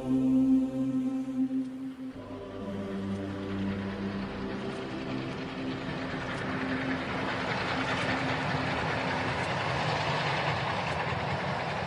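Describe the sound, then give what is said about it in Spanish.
Train approaching, a continuous heavy rumble with rail clatter that grows brighter and fuller as it goes on, sustained low tones at the start, and no voices. “viene el tren, compañeros.”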